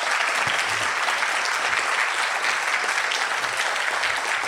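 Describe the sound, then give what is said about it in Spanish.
Audience applause fills the whole stretch, a dense, steady wash of many hands clapping at even loudness without a break. “Y aquí quiero que le dé un fuerte aplauso a Vladimir y Susana Pandura”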